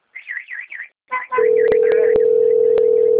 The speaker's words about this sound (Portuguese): Tá chamando ainda.